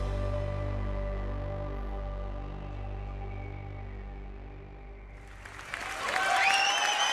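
Audience applause after a dance performance on stage: sustained music tones fade out, then loud clapping breaks in for the final second and a half.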